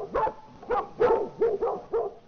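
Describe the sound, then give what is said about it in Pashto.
A dog barking six times in a loose rhythm, each bark short, loud and mid-pitched, with brief quiet gaps between them. “اوهو دا خو ډېر سپی دی دلته.”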